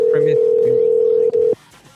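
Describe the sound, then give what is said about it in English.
A telephone rings during a call with a steady single-pitched tone that holds for about a second and a half, with one brief break before it cuts off. A voice is heard at the start. “Do you think that's the fuck you button since it's ringing like two times?”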